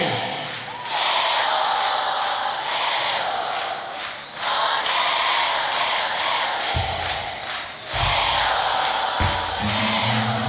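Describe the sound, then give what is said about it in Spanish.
A crowd at a live cumbia concert cheers, with girls screaming in loud, sustained, high-pitched cries throughout and a few low thumps near the end. “Ese grito de las chicas.”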